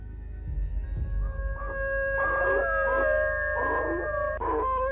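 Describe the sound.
Two dogs howl eerily, with long sustained wavering tones that overlap at different pitches. A few low thuds come before the howls.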